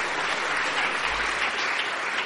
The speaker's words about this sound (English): Can we give him a round of applause? Give him a round of applause.